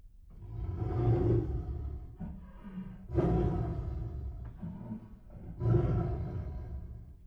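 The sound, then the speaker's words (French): A tiger gives a series of deep, rumbling roars and growls, with three loud surges that swell and fade between quieter guttural grumbles. “Qu'est-ce que c'est? C'est le tigre.”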